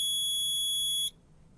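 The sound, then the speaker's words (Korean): A digital thermometer taking a student's temperature in a school nurse's office gives one steady, high-pitched electronic beep lasting about a second, followed by a brief faint blip. “이거 지금 열 재는 소리였던 것 같죠? 한번 열을 재보자꾸나.”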